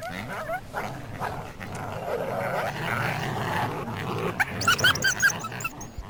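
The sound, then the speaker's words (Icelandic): Coyotes yip and growl amid a rough, low rumbling, with a burst of sharp, high-pitched howling yelps near the end. No speech is heard. “Hljóðin í sléttuúlfinum færðist nær og nær.”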